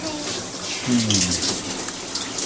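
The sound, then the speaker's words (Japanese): Shower water runs in a continuous, bright hissing spray with a steady, fairly loud wash of noise and small spattering fluctuations throughout the short stretch. “ちょっとシャワー浴びて。ね、シャワー浴びて。シャワー浴びてね。”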